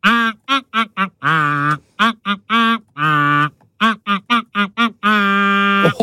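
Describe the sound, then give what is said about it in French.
A voice imitates a duck, quacking out a hit song in many quick, tuneful bursts with a few longer held notes, loud and rhythmic throughout. “Mais il est mélomane ce canard, fichtre.”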